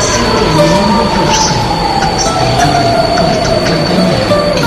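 A passenger train runs on rails, a loud, steady rumble with high squealing tones from the wheels threading through it from start to finish.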